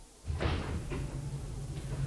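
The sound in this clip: A bathroom door being opened: a brief scraping knock near the start, then a softer rustle and a faint second knock over a steady background hiss.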